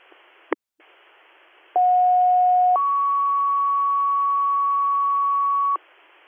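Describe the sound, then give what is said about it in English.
Two-tone dispatch alert over radio: a brief burst, then a steady lower tone for about a second and a longer, higher tone for about three seconds, over constant radio hiss. “And stand by for more tones.”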